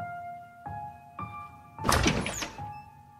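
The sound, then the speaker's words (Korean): A bathroom door is opened with a short, muffled thunk and scrape lasting about half a second, heard against soft, steady sustained tones. “그런 쓸데없는 생각을 하며 욕실 문을 열었다.”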